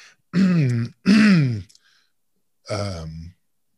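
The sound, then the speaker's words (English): Throat clearing right into a microphone: short, harsh, voiced bursts in quick succession, loud and with no talk around them. “sorry, just cleared my throat twice in the mic.”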